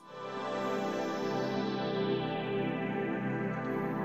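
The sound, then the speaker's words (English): A synthesizer sound holds as one rich, sustained chord. It swells in quickly and stays steady and even, with no notes changing. “I first kind of played with this synth sound, which sounds like this.”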